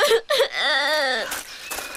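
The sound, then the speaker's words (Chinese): A child crying: a couple of short sobbing bursts, then one long, high, wavering wail that trails off into fainter, broken sounds. “好了好了，不哭不哭了啊！”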